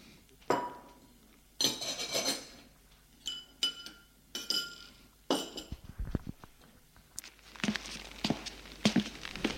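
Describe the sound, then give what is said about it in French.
Dishes and glassware clink and clatter as a cook prepares dinner, a series of irregular sharp knocks and rattles with short pauses between, growing busier and denser toward the end. “La cuisinière a mis le feu en marche et prépare le dîner.”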